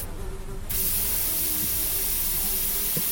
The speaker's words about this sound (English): I sprayed every little nook and cranny, every pipe. I watched the little buggers die, but still they kept coming.